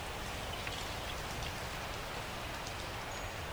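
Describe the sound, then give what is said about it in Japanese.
Steady rain falling, a constant even hiss with soft patter of drops throughout and no voices. “雨が降ってまいりましたね。”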